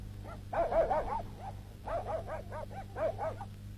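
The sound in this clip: A dog barks in three quick bursts of high, yappy barking with short gaps between them, fairly faint over a low steady hum.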